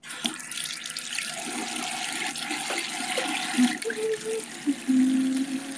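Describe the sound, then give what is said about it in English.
Water runs from a tap while hands are washed at a sink, a steady hiss throughout with soft splashing that shifts slightly near the end. “Let me wash my hands really quick.”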